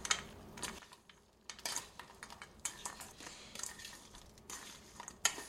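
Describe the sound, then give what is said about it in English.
Almonds coated in cinnamon and sugar being stirred, a quiet series of rattling, scraping bursts of nuts and utensil with short pauses between them, and no talk. “Okay, in they go. I think it went in there anyway. Now I'm gonna stir those up.”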